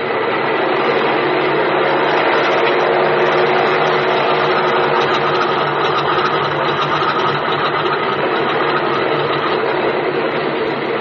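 Steady roar of an aircraft engine running up for take-off on a small passenger and mail plane. A dense, even drone holds at constant loudness from start to finish, with no voices over it.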